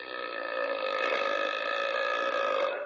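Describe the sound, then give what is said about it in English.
A human burp drawn out into one long, loud, steady belch of about three seconds, with a rough, buzzing, tonal quality from start to finish. “like that burp”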